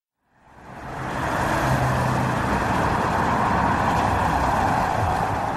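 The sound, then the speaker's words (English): Street traffic at the corner of Wilcox and De Longpre in Hollywood, outside the LAPD Hollywood police station, fades in over the first second and then settles into a steady, dense roar of passing vehicles. “Now we're standing right on the corner of Wilcox and DeLongpre, 1358 North Wilcox, which is the LAPD's Hollywood police station.”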